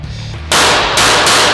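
Gunshots from a secondary weapon in a tactical shooter video game: three loud, sharp, noisy blasts follow one another in quick succession after a quiet start, each ringing out until the next.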